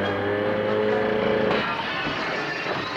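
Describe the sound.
An ATV engine revs and pulls away. The motor drones steadily, then its tone shifts about halfway through and stays loud to the end.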